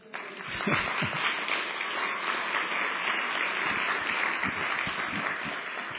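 Audience applause rises quickly and holds as a dense, even roar of many clapping hands, steady and fairly loud for several seconds with no talk over it.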